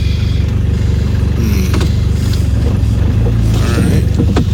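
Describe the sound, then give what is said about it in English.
Car engine rumbling loudly and continuously while the driver shifts back and forth between drive and reverse during a three-point turn to park, with faint mechanical creaks and tones over the low drone. “A lot of going in and out of gears. Is that what that is? Oh, is that what that sound is? I think. Back and forth, drive, reverse.”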